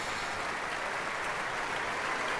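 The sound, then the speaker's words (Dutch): Steady applause from an audience clapping together, a dense, even patter of many hands held at a constant level throughout. “Even hard in de maan klappen met z'n allen.”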